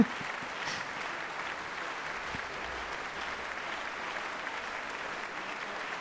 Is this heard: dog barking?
no